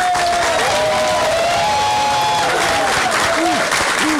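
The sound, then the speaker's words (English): A crowd applauds and cheers as Kelly Loeffler is introduced as the next U.S. Senator, with loud, unbroken clapping and a few rising whoops and shouts over the top. “Ladies and gentlemen, please join me in welcoming our next U.S. Senator, Kelly Loeffler.”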